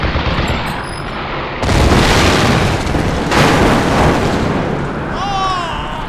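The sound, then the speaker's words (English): Sustained, dense gunfire and booming blasts from several guns in a video game battle, loud throughout, with a heavier stretch setting in after about a second and a half. “Uh-oh, there's six of them now. All guns firing.”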